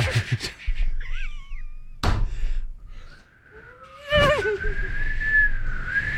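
A person whistles to imitate wind whistling through an unsealed gap in a hallway. A short wavering phrase gives way to a long, sustained, bending tone, with a couple of dull thumps along the way.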